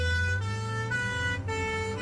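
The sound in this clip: An ambulance siren sounds loud and continuous, a bright tone rich in harmonics holding a steady pitch with brief dips, over a low vehicle rumble and with no talking.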